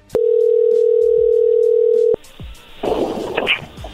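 A steady telephone dial tone hums at one even pitch for about two seconds while a call is being redialed, then cuts off abruptly into rustling line noise.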